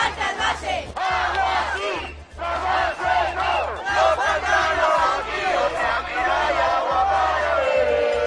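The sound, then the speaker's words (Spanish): Protest crowd in Guadalajara, Spain, chanting and shouting in loud, rhythmic unison. Massed voices rise and fall continuously, with brief dips between phrases. “Manifestación ayer en la capital alcarreña, en Guadalajara, con estos sonidos.”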